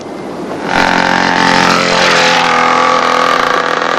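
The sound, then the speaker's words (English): A dirt bike engine roars past, a loud buzzing whine that surges in abruptly and holds steady, its pitch dipping midway as it goes by. “a dirt bike nearly mows them down”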